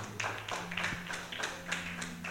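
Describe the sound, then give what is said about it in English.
A church audience claps in a quick, steady rhythm, fairly faint, with the claps evenly spaced throughout. “Clap for Jesus.”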